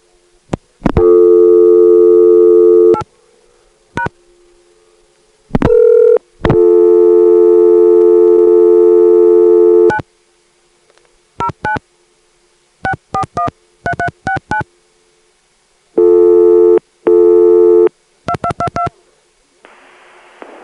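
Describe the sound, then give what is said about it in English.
Telephone network tones signal an invalid area code and then an invalid authorization code: short bursts of dialed touch-tone digits alternate with several loud, steady electronic tone bursts separated by silences. “So here it is, first an invalid NPA and then an invalid authorization code.”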